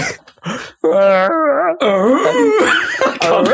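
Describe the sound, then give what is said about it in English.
A voice imitates Wookiee noises in long, loud, wavering howls and moans with sliding pitch, broken by brief pauses between the calls. “You have to replace that with Wookiee noises.”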